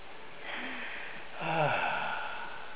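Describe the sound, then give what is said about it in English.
A deep breath drawn in slowly and audibly, a soft airy rush that swells and then eases, heard alone. “Take a deep breath.”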